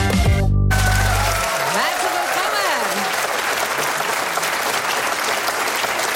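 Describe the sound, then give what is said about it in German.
Applause from many people in the audience at a live stage show: loud, steady clapping that fills the whole clip without letting up, preceded by a brief low tone at the very start. “Wir hören hier in der Live-Stage ganz viele Leute.”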